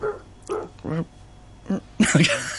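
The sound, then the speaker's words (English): A person's voice imitates a neighbour's dog barking, giving a few short, rough barks with gaps between them and a louder, longer burst at the end. “We're going to do the dog next door noise.”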